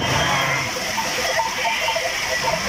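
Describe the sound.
Sheep bleating from a flock of about 650 rescued with two shepherds after snow and a landslide stranded them on the Sultan Dağ plateau near Isparta. Many overlapping bleats sound over a steady, loud rushing noise.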